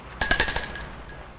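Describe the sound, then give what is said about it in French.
A doorbell rings at a house door, one bright, bell-like chime that starts abruptly and rings out, fading over about half a second into quiet. “Là, il sonne à la porte.”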